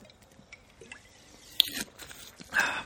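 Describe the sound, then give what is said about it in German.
Someone takes a quick sip of a drink: faint, soft wet clicks and small squishy mouth sounds, then a louder gulp-like swallow near the end. “ich muss mal kurz was trinken, sorry”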